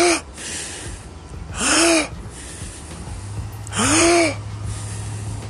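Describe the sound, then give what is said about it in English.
Two gentle exhalations through the nose in a breathing exercise, each a soft, breathy whoosh with a faint whistling tone. A pause separates them, and a steady low hum runs underneath. “We breathe it in, let it out through our nose.”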